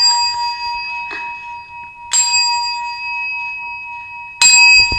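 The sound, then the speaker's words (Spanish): A clock bell strikes the New Year's Eve chimes: a few widely spaced strikes, each a bright metallic clang whose pure ringing tones hang on and overlap between blows, the later strikes louder, with no voices. “Luego los cuartos. ¡Ding dong! ¡Ding dong! ¡Ding dong! Y luego las campanadas.”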